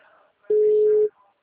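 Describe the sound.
A single steady telephone line tone sounds as a call is placed again, a clean, mid-pitched beep lasting about half a second.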